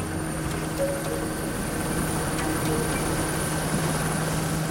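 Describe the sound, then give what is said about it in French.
An air force Super Puma helicopter lands on the stadium lawn at Furiani. Its engines and rotor make a dense, steady roar with a faint high whine, unbroken throughout. “Une demi-heure plus tard, un premier hélicoptère Super Puma de l'armée de l'air se pose sur la pelouse de Furiani.”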